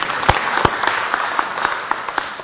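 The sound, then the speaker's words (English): A church audience applauds with steady, dense clapping that holds an even level throughout, with a few sharper individual claps standing out. “let's applaud the Lord.”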